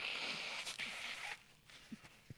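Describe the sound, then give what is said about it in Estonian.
A nose is blown into a pocket handkerchief: one sustained, airy blast lasting about a second, followed by a few faint rustles. “taskurett no.. et igaks juhuks äh, teeme selle nina yeah, puhtaks ära.”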